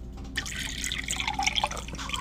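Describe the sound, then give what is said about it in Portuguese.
A sip of water: soft, wet liquid sounds begin abruptly, followed by a few faint gulping swallows, with no talk. “Deixe-me tomar mais um gole d'água aqui”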